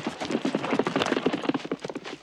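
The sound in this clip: A horse gallops along a riverbank in pursuit, its hooves pounding out a rapid, steady run of many loud thudding beats from start to finish.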